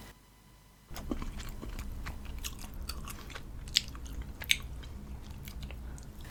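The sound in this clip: Someone eats instant ramen noodles with small sausages, chewing quietly. Soft, continuous mouth and crunching noises are punctuated by two sharper clicks of biting.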